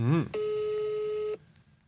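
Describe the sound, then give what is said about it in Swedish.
A single steady, mid-pitched ringback tone from an outgoing telephone call holds for about a second and then stops abruptly. A brief voice is heard just before it. “för att reda ut det ska jag ringa här, testa Sirius kommunikatör Viktor”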